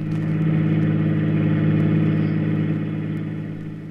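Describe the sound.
A convertible car drives with a steady, mid-pitched engine drone and a smooth harmonic hum that holds level, then eases slightly quieter near the end.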